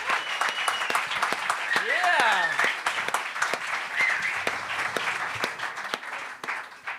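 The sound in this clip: Audience applause, dense steady clapping that fills the stretch and thins slightly at the end, with people talking over it.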